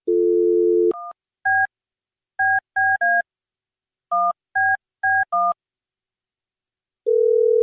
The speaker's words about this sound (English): I'm going to call her right now.